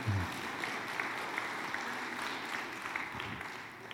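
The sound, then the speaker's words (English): An audience at a church gathering claps steadily in dense, sustained applause that eases slightly toward the end. “If you would allow her that, you could clap for her too if you'd like to.”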